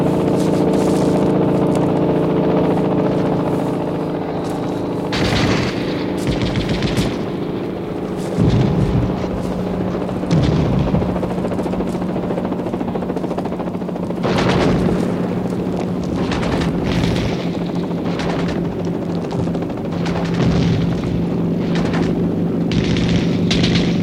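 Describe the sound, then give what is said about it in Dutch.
Battle gunfire: many sharp, irregular bursts and cracks ring out over a continuous rumbling, roaring background, with no talk. “Blijf schieten!”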